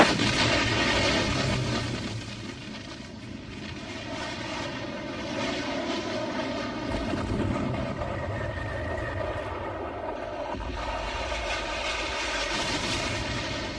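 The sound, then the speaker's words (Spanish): Heavy aircraft engine roar during the 1973 bombing of the presidential palace in Santiago, Chile: a loud, dense, continuous rumble that dips briefly early on, then holds steady to the end, with no voices. “Lo que estamos escuchando es el bombardeo al Palacio de la Moneda en Santiago de Chile el 11 de septiembre de 1973, hace 40 años.”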